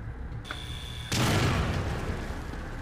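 A bomb goes off in a video game with a sudden loud blast that keeps rumbling to the end. Before it, a steady high electronic tone sounds.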